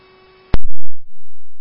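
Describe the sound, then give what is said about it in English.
Fire dispatch alert tones over a radio channel for a fire station: a steady buzzy tone, then a sharp loud burst, followed by a lower sustained tone. “Scandia Station on fire, receive tones.”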